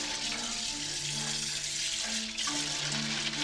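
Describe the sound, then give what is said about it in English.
Tap water runs into a sink over a blood-stained plastic bag, a steady continuous rushing hiss that holds its level throughout, with soft sustained musical tones shifting underneath and no voices. “She scurries to the sink and runs water over the blood-stained bag.”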